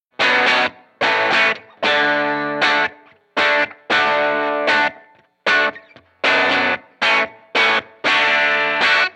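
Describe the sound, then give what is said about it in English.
A Fender Lead III electric guitar on its bridge single coil with the treble cranked rings out bright and distorted, played in many short chord stabs and phrases with small gaps between them. “If I go down to single coil, just in the bridge, and then I crank that treble, you know, like I like to do.”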